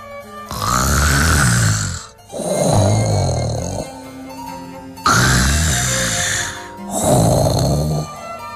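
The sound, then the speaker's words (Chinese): A sleeping hippo snoring loudly like thunder: four long, deep, rumbling snores in a steady rhythm, each lasting well over a second, heard alone without talk. “可是河马睡着了，打呼噜的声音像打雷。”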